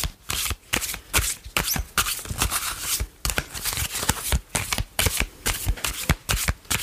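Tarot cards being shuffled by hand, with many quick papery riffles and slaps in uneven bursts separated by brief pauses.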